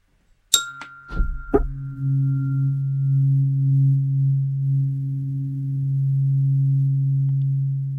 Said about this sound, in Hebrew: את המדיטת העצמה אני אלווה גם עם צליל אום, שיש לי אותו גם בקולנים, הוא נשמע ככה.